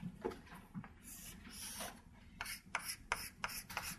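Scratchy hand-drawing strokes as a diagram is sketched during a physics lecture on density of states: a series of short, rasping strokes of uneven length, faint and with no talk over them.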